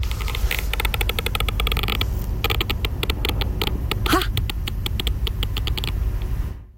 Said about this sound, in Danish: Og så i går så gjorde jeg opptak av en rar lyd som nesa mi laget. Så jeg vil gjerne, det er ikke noe ekkelt. Jeg synes bare komisk at nesa mi laget lyden her. Bare hør på klippet.